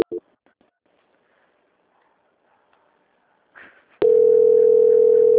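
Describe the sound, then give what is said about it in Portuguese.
Telephone call tone while redialing: a near-silent stretch with a few faint clicks and a brief rustle, then a loud, steady tone that starts abruptly and holds to the end. “Eu tô ligando aqui de novo, peraí.”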